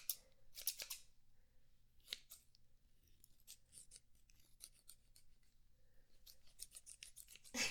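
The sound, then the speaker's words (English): Scissors cut through bacon in many crisp, quiet snips and scrapes. Short blade closures come at an irregular rhythm over a low hum, and no one speaks. “However, I'm cutting bacon, so no, I'm not cutting hair right now.”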